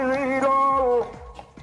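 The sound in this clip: A street bottle collector's drawn-out call carries in the background, a sustained harmonic tone lasting about a second before fading into quieter street noise.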